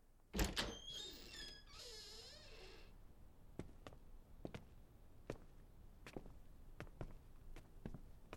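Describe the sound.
A door is opened quietly: a couple of sharp clicks, then a long wavering creak or scrape, followed by soft, evenly spaced ticks.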